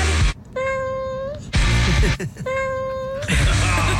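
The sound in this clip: Two long cat meows are set into a pop song, each drawn out on a steady pitch with a small lift at the end. Short bursts of music come between and after them.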